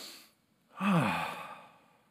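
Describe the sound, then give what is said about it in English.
A group of people take a deep breath together: a faint intake, a short pause, then one long, heavy, sigh-like exhale that slowly fades. “Now, everybody here, y'all just take a deep breath with me.”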